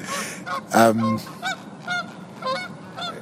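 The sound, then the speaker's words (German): A flock of wild geese honks while flying overhead: many loud, nasal calls come in quick succession, some overlapping, with short gaps between bursts. “Diese Töne wurden Ihnen präsentiert von einem Wildgänseschwarm, der gerade über uns fliegt.”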